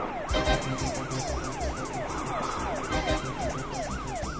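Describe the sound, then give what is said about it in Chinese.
A police car siren wails in quick, repeated rising-and-falling sweeps, steady and continuous, over a low rumble of road traffic. “你说后面的警车不是冲着我们来的吧？”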